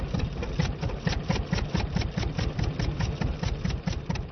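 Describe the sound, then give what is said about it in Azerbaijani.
Petrol-powered electricity generators run in Lankaran with a steady, rapidly pulsing engine drone, low and throbbing, and no voices. “Bircə, işıq əldə eləmək üçün benzinlə işə salınan generatorların səsindən başqa.”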